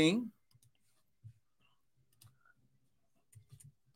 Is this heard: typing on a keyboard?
yes